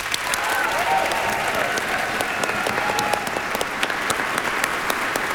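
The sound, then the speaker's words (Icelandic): Audience applause for children's choirs after a concert, a steady, full wash of many hands clapping that stays even in loudness from start to finish, with no talk over it. “Við skulum gefa barnakórunum okkar gott klapp.”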